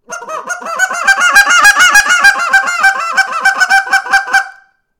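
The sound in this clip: Rapid clucks imitated by a caller, a quick run of many short, bright, harmonic clucks, each starting right as the last ends, steady and fairly loud for about four and a half seconds before stopping.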